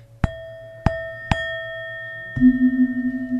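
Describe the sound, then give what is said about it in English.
Tibetan singing bowl made of seven metals: three sharp strikes, each leaving a clear sustained ringing tone, followed by a lower, wavering, pulsing tone that holds to the end. “So this Tibetan bowl is made of seven different metals, and they all interact with each other to produce a very rich, harmonious sound.”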